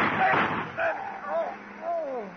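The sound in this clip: A staged gunshot in a radio crime drama sets off a single sharp, loud burst at the start, then a man's voice speaks in short, strained phrases.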